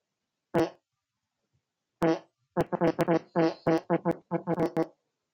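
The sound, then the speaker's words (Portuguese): Fake fart noises, made as short buzzy blasts: one, then after a pause another, then a rapid uneven run of many more, fairly loud against silence. “peidando.”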